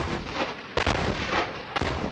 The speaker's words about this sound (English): Israeli artillery and warplanes are pounding Gaza in a bid to destroy a vast network of Hamas tunnels.